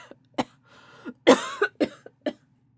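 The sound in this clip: A person coughing and clearing their throat: a few short, harsh bursts spread out unevenly, with one louder, rougher cough in the middle, and no talking.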